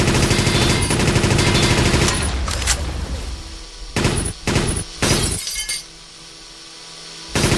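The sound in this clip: Machine gun fire: a dense, loud stretch of rapid rattling shots in the first two seconds, followed by several separate sharp bursts with quieter gaps between them.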